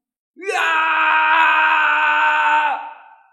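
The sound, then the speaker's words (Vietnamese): A man howls in rage like a wounded beast, one long loud sustained cry that swells quickly at the start, holds steady, then drops and fades away. “Thạch Hạo gào thét giống như là dã thú bị thương, ngửa mặt lên trời gầm thét”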